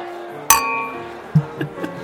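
Glasses clinking in a toast: one sharp, bright clink with a lingering ring, followed by a few softer, shorter taps of glass against glass.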